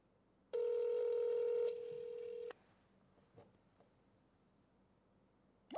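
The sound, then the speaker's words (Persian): A telephone ringing tone on an outgoing call to a phone line: one steady electronic tone about two seconds long that drops slightly in level partway through, then quiet line hiss and a short click at the end. “دوباره شروع کرد به زنگ خوردن.”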